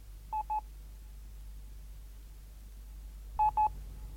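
Telephone dialing tones: two quick beeps, a long pause, then two more, heard faintly over a low steady hum.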